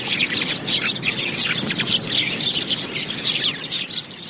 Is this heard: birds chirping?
yes